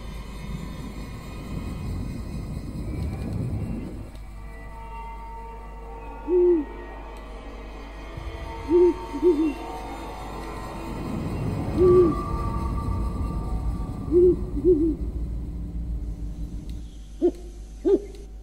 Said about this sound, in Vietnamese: Đâu đó trong đêm, tiếng cú mèo đi ăn cứ vang lên những tiếng nghe lẻ loi, thê thiết lắm.